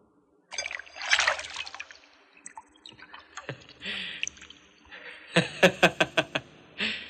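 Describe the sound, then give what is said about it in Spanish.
Clean water is poured into a clay bowl and dye powder is added. A trickling splash rises early, softer liquid sounds follow, and a quick run of sharp splatters comes near the end. “Ponen agua limpia en una fuente de barro y luego le echan polvos colorantes.”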